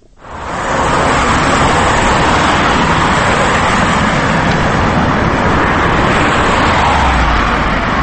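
Car traffic whizzing along a Moscow street makes a steady, loud roar of passing vehicles. It rises quickly at the start and then holds an even wash of engine and tyre noise, with no talk.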